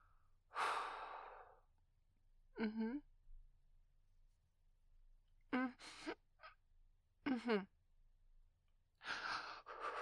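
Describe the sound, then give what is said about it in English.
A person breathing heavily while trying to get through discomfort: a few separate, quiet, breathy gasps and exhales, spaced apart by near silence. “Just trying to breathe through it.”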